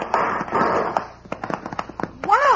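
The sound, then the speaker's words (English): Gunshot sound effects in a radio drama shootout between a posse and convicts: many sharp cracks in quick, irregular succession, mixed with voices. “Hit the dirt. He's got our range. They're shooting at us.”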